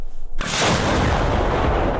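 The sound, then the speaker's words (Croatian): An American Paladin howitzer of Ukraine's 24th Artillery Brigade fires near Chasiv Yar, a single sudden heavy boom followed by a long, broad rumbling roar that slowly fades. “24. artiljerijska brigada koristi američku haubicu u blizini grada Časiv Jar. Obično pucaju na pješadiju koju uoče na prvoj liniji fronta”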